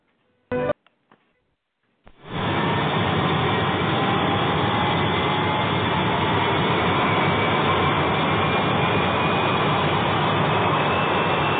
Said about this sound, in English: Now, I see we're number one for takeoff, so, Captain, let's get flight number 402 in the air and heading to Portland.